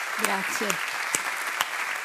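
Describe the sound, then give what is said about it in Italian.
An audience in a hall applauds two performers warmly, with steady clapping and a few sharper claps. A voice briefly speaks over it near the start. “Grazie anche al pubblico della Sala A che sta applaudendo con molto calore Clara Galante, Cinzia Pennesi.”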